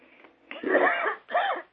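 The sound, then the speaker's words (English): A person coughs during a council meeting. Two loud, harsh, throaty coughs follow a faint start, separated by a short gap. “pardon me as I have a coughing fit.”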